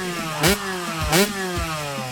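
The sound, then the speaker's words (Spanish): A motorcycle engine revs with a steady, buzzing mid-pitched drone that dips and recovers, broken by two brief louder bursts of throttle. “Tremendo. Una motocicleta. Tremenda motocicleta.”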